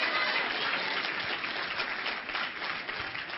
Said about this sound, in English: Yeah, you ought to clap, not for me, for him.